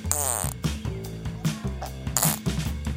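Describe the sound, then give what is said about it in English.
A voice imitates a zebra farting with buzzy, raspy, sputtering vocal noises that come in a few loud bursts one after another. “And this is my impression of a fart. This is a zebra farting.”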